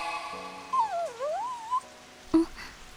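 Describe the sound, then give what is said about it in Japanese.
A dog stuck on railway tracks whimpers in one drawn-out, faint whine that dips in pitch and then rises again, followed by a short sharp knock, against a quiet background. “今の声って、 線路の真ん中にワンちゃんが動けないの？”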